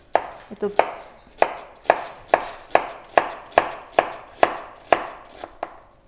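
Onion being finely chopped with a knife on a board, many crisp, evenly spaced chops in a steady rhythm with a brief irregular start.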